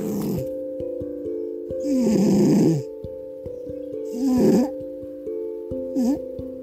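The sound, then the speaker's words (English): A female cat snores at home, with a few raspy, wheezy snores rising and falling at a slow, regular pace over a steady low drone. “just me and my cat, and this is the sound of her snoring”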